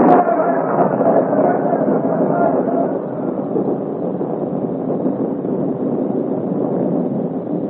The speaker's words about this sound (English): The storm has fought upon our side. They'll never find us in this downpour.